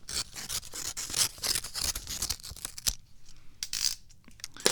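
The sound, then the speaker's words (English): A utility knife slices open a paper envelope, giving faint, dry rasping and tearing bursts in an uneven rhythm with short pauses, with no voices. “Use my utility knife to slice open the envelope here.”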